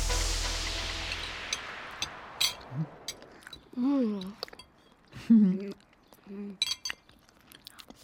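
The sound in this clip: People chew and bite into lime cake. Soft crunching mixes with a few bright clinks of cutlery or glass, and short murmured voiced sounds come and go between bites.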